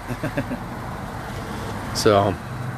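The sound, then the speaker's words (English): Road traffic from the many vehicles nearby: a steady, constant rumble of cars and engines that fills the whole clip. “There's a lot of vehicles around here. As they can hear.”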